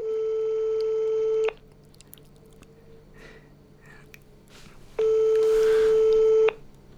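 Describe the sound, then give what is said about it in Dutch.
A telephone ringback tone plays while the caller waits for an answer: two long, steady electronic tones, each about one and a half seconds, separated by a quiet gap of several seconds. “belt nu naar haar hoofdactrice. En dan moeten we die vragen stellen. Als je wilt, kunt je telefoneren. Als ze oppakt, natuurlijk.”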